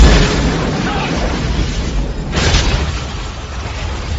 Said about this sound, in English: he appears to be aiming a rocket launcher at the chalet. We're too close.